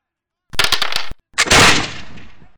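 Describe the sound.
A gunshot sound effect used in a tabletop game: a rapid burst of sharp, loud shots, then a brief gap and a heavier blast that rings out and fades slowly.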